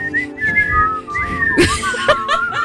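A person whistles a wavering tune of sustained high notes that glide and bend in pitch, carrying steadily from start to finish, with no talk over it.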